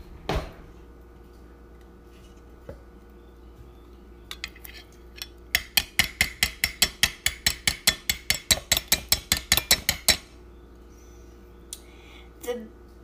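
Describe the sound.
Peanut butter is scooped into a half measuring cup: a few scattered utensil clinks, then a steady run of many quick, sharp metallic taps and scrapes, followed by one last clink after a pause.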